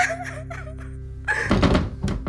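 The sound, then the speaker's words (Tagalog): Banging on a wardrobe door from inside: a few heavy, dull thumps and knocks arrive in quick succession after a tonal, voice-like sound at the start. “Lumalakas din ang pangangalampag niya sa loob ng pinto.”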